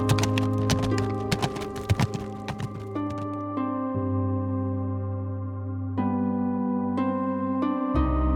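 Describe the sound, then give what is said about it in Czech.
Horse hooves clip-clopping as riders set off: a quick, uneven run of hoof beats fills the first few seconds over sustained musical tones, and the music carries on alone after the hooves fade. “Vezmeme si jen nějakého pěkného koně tady pro mého sluhu Vinska a budeme pokračovat za dalším dobrodružstvím. Šťastnou cestu, princi. A jeli se svým sluhou dál.”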